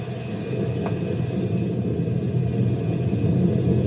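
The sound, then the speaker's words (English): A machine is thrown into gear to raise a gate, giving a steady, heavy low rumble and mechanical drone that runs throughout and swells slightly toward the end, with no talking. “Okay, Chet, throw it in gear and raise the gate.”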